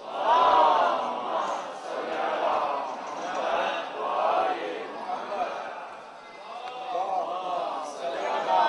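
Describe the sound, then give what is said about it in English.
An audience at a religious gathering loudly chants a salawat in unison. Many voices rise and fall together in sustained, rhythmic phrases that stay loud throughout. “Send a loud salawat.”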